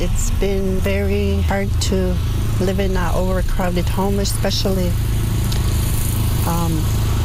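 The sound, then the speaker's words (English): A lawnmower engine runs throughout as a steady low drone beneath a person speaking, its hum unbroken from start to finish. “We're sorry about the lawnmower sound in the background.”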